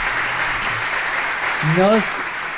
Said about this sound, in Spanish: Bueno, no, aplausos.